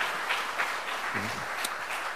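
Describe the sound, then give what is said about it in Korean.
An audience applauds at a church award ceremony for a Sunday school competition. The clapping is a steady, fairly faint patter with no breaks. “큰 박수로 축하해 주시면 감사하겠습니다.”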